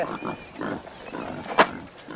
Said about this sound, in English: 400 years ago, boar were common in Scotland.